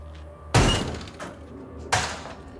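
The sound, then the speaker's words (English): A door kicked open with two sharp, loud crashing impacts about a second and a half apart, each followed by a short rattling decay, separated by near quiet. “She approaches the main building and kicks the door open.”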